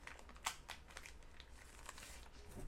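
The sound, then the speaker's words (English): Faint clicks and crinkling as a BJJ manicure kit with nail clippers, small scissors and files is handled during an unboxing, a few light taps scattered over a soft, continuous rustle. “And then this looks like a manicure kit. It's like”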